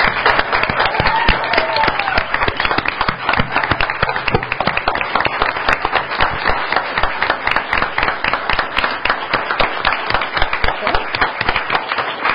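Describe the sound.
Audience applause welcomes a newly appointed school superintendent at a Board of Education meeting, loud, dense clapping from many hands that carries on steadily for over ten seconds without letting up.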